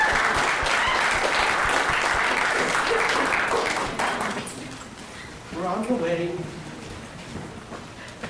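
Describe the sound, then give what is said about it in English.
Loud, steady applause from an audience that fades after a few seconds, followed by a voice talking over a quieter room. “All the people are cheering for me.”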